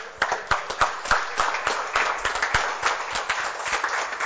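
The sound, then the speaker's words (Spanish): A church audience applauds during a marriage workshop session, with many sharp, fast claps in a fairly steady rhythm that runs loud throughout. “Le voy a invitar que demos un aplauso al Señor.”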